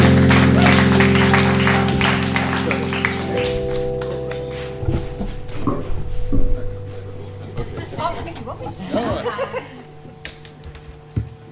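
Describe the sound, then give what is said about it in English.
A church audience at Embassy Church in Belmore, Sydney, applauds a guest speaker. Loud, dense clapping gradually thins and fades, then a man begins speaking alone. “let's welcome, put our hands together for Mr. Bob Manning”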